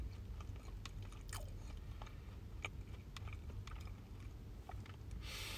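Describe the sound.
Biting and chewing of a convenience-store salad chicken and egg sandwich: many faint, crisp crunches and soft moist chews at an uneven pace, quiet and alone.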